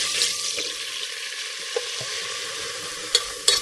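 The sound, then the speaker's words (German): Flour sizzles gently in melted butter while a roux is made. A soft, steady frying hiss runs under occasional stirring scrapes, with a few sharper clicks near the end. “ja, in die Butter, dann etwas angehen lassen, also eine Mehlschwitze.”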